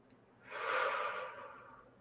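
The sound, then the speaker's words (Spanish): One slow, deep breath in through the nose and out through the mouth, taken during a relaxation exercise. It is soft and airy, rising and then fading alone against quiet background. “vamos a respirar profundamente tres veces por la nariz y exhalar por la boca.”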